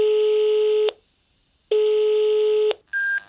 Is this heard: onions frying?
no